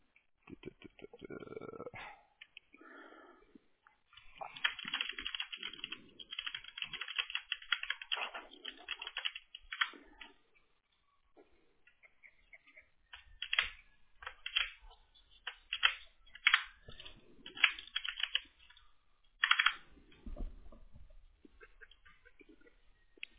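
Typing a message on a computer keyboard: many quick, light key clicks in irregular bursts, broken by short pauses, with no talking.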